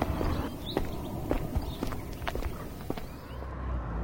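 Footsteps of people walking along a town road, with many light, irregular steps tapping through steady outdoor background noise. No voices are heard.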